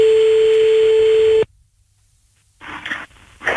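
Telephone line tones as a call is placed to a listener. A steady, single-pitched tone sounds loudly, then cuts off abruptly into silence. A short burst of noisy line sound follows near the end.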